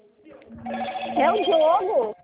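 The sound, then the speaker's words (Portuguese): A phone rings with an incoming call, its electronic ringtone warbling through wavering, rising and falling tones for about two seconds before cutting off. “Nossa, tem uns 018 ligando aqui”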